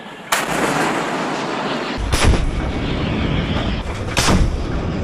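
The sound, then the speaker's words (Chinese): A warship's naval gun fires during a live-fire drill at sea: three heavy, sharp booms about two seconds apart, each followed by a rumbling tail, with a steady background roar between the shots. “在舰炮射击科目中，遵义舰率先出战，在规定时间内成功命中全部目标。”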